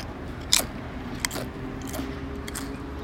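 Crunchy, lightly salted potato chips being eaten during a chip tasting, giving a few crisp, faint bites and crunches separated by quiet pauses.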